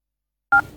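Telephone keypad dialing tones from a phone keypad: two short, clean dual-tone beeps after a stretch of silence, the second cut off at the end.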